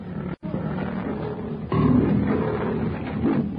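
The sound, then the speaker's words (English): A half-starved lion roaring as it launches a rushing charge: a deep, rough, sustained growling roar that swells louder partway through and stays heavy to the end. “With a roar, the half-starved beast launches itself in a rushing charge straight at Kailuk.”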